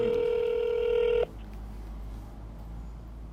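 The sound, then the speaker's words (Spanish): An outgoing phone call rings out: one steady, loud ringback tone cuts off abruptly, then a low hum of line noise follows. “ahorita va a contestar la llamada y lo vamos a grabar”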